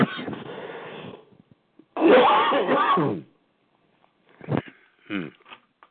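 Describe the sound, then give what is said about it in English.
Someone coughs and clears their throat as if something is caught in it, in a few rough, separate bursts broken by short silences. “Whoa, I don't know what it is. Excuse me, folks.”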